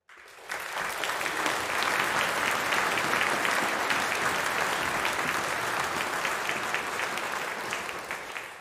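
Steady audience applause welcomes a guest onto the stage. It swells in after a brief silent start and holds at an even, dense level for about eight seconds before easing slightly at the end.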